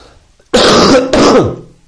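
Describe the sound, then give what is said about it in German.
Cough, a pair of loud, harsh bursts in quick succession, each raspy and throaty with a short pause between them and no talking around them. “Soll ich dir mal erzählen, weil ich gerade gehustet habe?”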